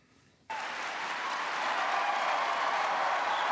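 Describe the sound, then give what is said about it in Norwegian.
An audience applauds at the first US presidential debate of the 2012 election in Denver. The applause starts abruptly after a brief quiet moment, then holds as a loud, dense, steady clatter of many hands to the end. “Varm velkomst fra ei spent forsamling i Denver.”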